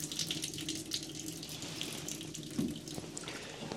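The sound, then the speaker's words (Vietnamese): Water runs from a tap opened to a small flow, a steady, fairly faint hissing and splashing stream with no breaks. “Rồi cũng bằng phương pháp là mở nước nhỏ vậy luôn. Mở nước vậy nè. Đó, nước này để thôi.”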